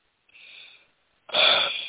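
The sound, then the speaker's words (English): A person takes guided breaths: a soft, brief breath sound comes first, then a second, louder and longer breath after a short pause. “All right, take a breath.”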